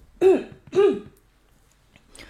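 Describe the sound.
A person with a dry morning throat clears it twice in quick succession with two raspy, voiced bursts, followed by near silence and a faint trailing noise.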